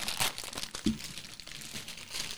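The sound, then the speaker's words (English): Crinkling and tearing of a plastic MRE ration package being ripped open by hand: a quiet, rustling crackle with a few sharper tearing bursts. “So it all comes in, I guess, one package. Mm-hmm. Let's see. This one you can just rip open.”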